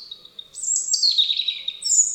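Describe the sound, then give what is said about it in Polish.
European robin singing: a continuous run of high, thin warbling and whistled phrases that shift quickly in pitch, heard clearly alone with no voices. “Rudzik jest jednym z najlepszych naszych śpiewaków.”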